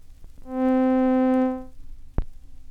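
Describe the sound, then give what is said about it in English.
Single synthesizer middle C tone with slow growth, long duration and slow decay: a steady, buzzy, harmonic-rich note swells in, holds for about a second and fades away, followed by a brief click. “Taking the same note with which we have been working, the middle C, we find that slow growth, long duration, and slow decay give it a sound like this.”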